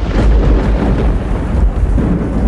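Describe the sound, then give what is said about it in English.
Pouring rain: a loud, steady roar of heavy downpour that fills the whole stretch, dense and unbroken with deep low weight, and no voices. “sit on the back porch with glasses of wine as they watch the pouring rain.”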